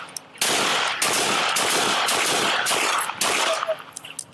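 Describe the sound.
Gunfire rings out in a police shootout in Indianapolis in which a felon shoots officers: many loud, sharp shots in rapid, irregular succession, with brief gaps between clusters.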